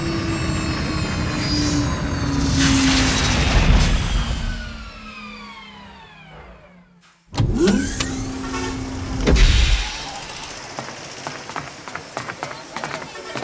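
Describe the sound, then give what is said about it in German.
An airplane beginning its landing approach: a loud rushing engine roar with whining tones that fall in pitch and fade, then after a brief break another loud, steady rush of engine noise. “Wir beginnen unseren Landeanflug und wünschen einen spannenden Aufenthalt in Indien.”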